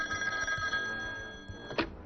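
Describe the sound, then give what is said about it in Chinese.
A telephone ringing, faint and steady, with a sustained bright tone over low background sound, ending in a brief sharp click. “而就在这个时候，第二守备总队总队长秦祥征接到电话”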